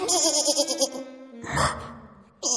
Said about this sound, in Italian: Ma tu sei un capretto.